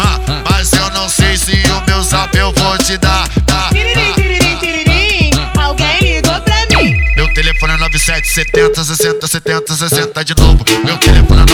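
A telephone rings with an incoming call, a loud electronic melodic ringtone of rapid repeated notes that plays continuously, with one long held tone partway through.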